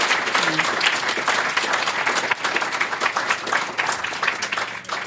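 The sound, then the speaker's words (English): Loud audience applause at a Commonwealth Club event: dense, energetic clapping from many hands that continues without a break for the whole stretch. “Let's give John a big hand.”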